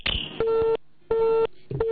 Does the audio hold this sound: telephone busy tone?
yes